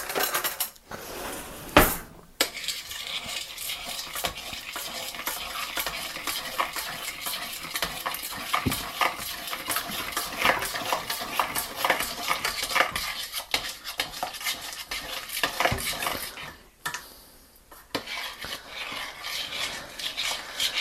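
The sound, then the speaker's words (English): Utensil stirring a thick sauce in a mixing pot, making a long run of steady scraping and clinking against the pot that is interrupted by a couple of brief pauses. “Unfortunately, this mixing pot doesn't mix as well as I would have liked, but okay, we've got kind of a thick sauce now.”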